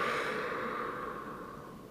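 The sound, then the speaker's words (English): A deep breath during a stretching and breathing practice: one steady, airy rush of breath that fades gradually over about two seconds, with no talk. “I take a deep breath in. I lift my arms up, palms together, and then exhale down.”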